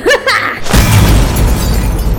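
An explosion as a robotic device is struck and destroyed in a holographic combat training simulation: a brief tonal whine, then a loud, sudden blast that breaks into a sustained, rumbling crackle of debris until the end.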